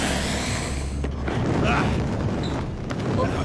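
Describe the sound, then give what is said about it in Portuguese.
A blowtorch in a dubbed film scene gives a loud, steady roaring hiss that runs the whole time, with a few brief bursts in the middle. “Agora desliga esse maçarico.”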